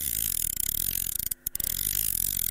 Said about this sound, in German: das ist schon mal gut, dass du erkannt hast, dass da was aufgezogen wird. Es ist eine Angel.